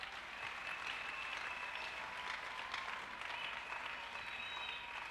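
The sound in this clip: An audience claps and cheers to acclaim the Lord during a church service, a dense and continuous wash of applause at even strength throughout, with crowd voices mixed in.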